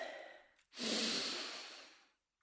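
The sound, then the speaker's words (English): Slow breathing in and out: a soft airy breath fades away, then after a brief pause a longer, louder breath swells and slowly tapers off, with no voices. “as you breathe in, you focus on the in-breath, and as you breathe out, you say, release.”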